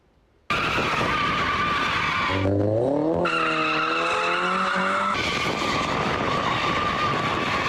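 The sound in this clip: Cars drifting on streets in Ankara, tires skidding: a loud, continuous high screech that runs almost unbroken after a quiet start, with an engine revving and climbing in pitch through the middle.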